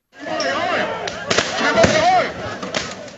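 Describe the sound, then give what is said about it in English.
Tear gas fired on a university campus during clashes between police and students: a few sharp bangs and thuds break through loud shouting voices and crowd noise. “Now, firing tear gas on campuses was not done until now. And what you're hearing were students at Chinese University of Hong Kong.”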